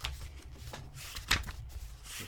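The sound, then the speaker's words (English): Paper rustling as the pages of a book are turned: a series of soft, dry swishes and flicks, with one sharper page flip near the middle. “This is the sound of pages turning on a book for those at home.”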